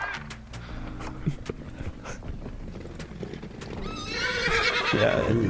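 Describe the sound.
A horse trots with a quick, steady clip-clop of hooves, then gives a loud, shrill whinny near the end that carries over the hoofbeats.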